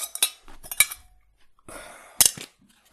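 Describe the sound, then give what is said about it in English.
Handling a thermos on a cold-weather camping trip: a few sharp metallic clinks and rattles, separated by softer scraping and handling noise. “With that in mind, it's thermos time.”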